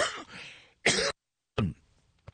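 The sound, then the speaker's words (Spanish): Coughing from someone coming down with a mild cold: a few harsh, throaty bursts separated by short silences, ending with one faint short cough. No talk. “me estoy medio agripando un poquito, me disculpo si a veces toso”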